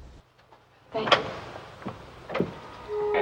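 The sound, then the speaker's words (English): An office door being opened produces a few short clicks and knocks at moderate loudness over a quiet background. “He shakes Jean's hand and opens the office door for her.”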